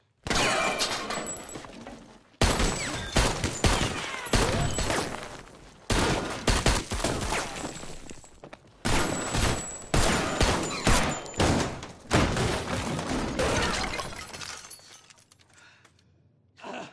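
Gunfire in a chaotic shootout: many loud, rapid shots in dense bursts, with brief lulls between volleys, before it tapers off into quiet near the end.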